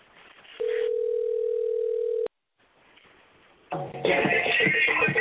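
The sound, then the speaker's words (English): A telephone tone sounds as a call is dialed: one steady, flat electronic tone holds for about a second and a half, then cuts off to near silence before a louder, rougher noise returns. “Here we go. It's dialing.”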